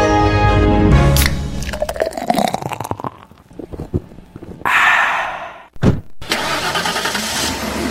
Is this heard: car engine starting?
yes